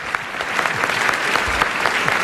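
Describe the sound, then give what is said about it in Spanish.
Steady, loud applause from an audience greeting two guest performers, a dense patter of many clapping hands that runs unbroken from start to end. “más fuerte que para Sergio, el aplauso para tus dos invitados de hoy, para Lord Macbeth, que ha sido interpretado por Borja F. Sedano.”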